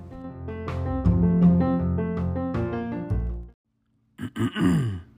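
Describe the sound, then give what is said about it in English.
A person clears their throat with long, voiced, gravelly rumbles and grunts, then falls silent briefly before one more short rasping burst. “I was trying to clear my throat.”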